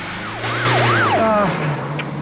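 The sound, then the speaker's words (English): An ambulance siren wails in rising and falling sweeps over a low engine rumble as the vehicle pulls away from a roadside crash scene. The siren cuts off partway through while the engine drone carries on. “steps back into the ambulance and it pulls away”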